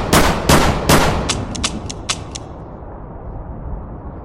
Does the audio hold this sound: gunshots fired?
yes

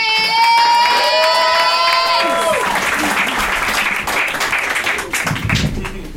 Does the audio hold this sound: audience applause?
yes

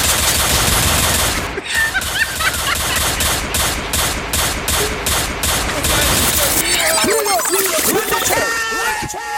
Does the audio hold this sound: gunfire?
yes

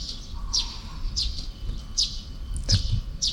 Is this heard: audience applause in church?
no

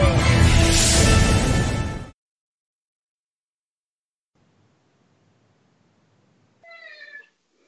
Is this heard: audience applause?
no

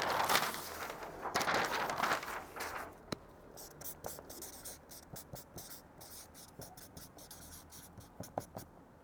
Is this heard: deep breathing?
no

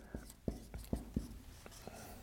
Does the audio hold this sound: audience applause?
no

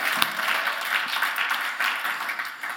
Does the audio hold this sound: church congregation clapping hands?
yes

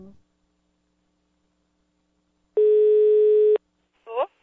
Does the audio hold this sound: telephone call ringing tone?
yes

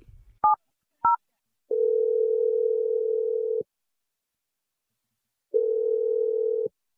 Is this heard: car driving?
no

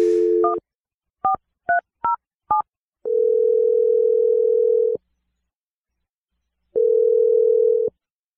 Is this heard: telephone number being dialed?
yes

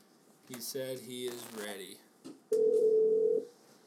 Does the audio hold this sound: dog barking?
no

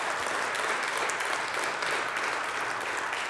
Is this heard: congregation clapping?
yes

